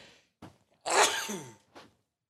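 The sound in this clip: A single sneeze: a quiet, sharp, breathy burst, with a few softer short breaths just before and after it and no talk.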